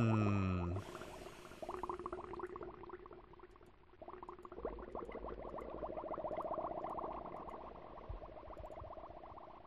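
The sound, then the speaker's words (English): Underwater bubble sound effects from a video game: continuous soft gurgling and bubbling made of dense, rapid liquid pops, fairly faint and steady throughout with no voices. “I will say that I find these underwater bubble sound effects less convincing than other sound effects in the game.”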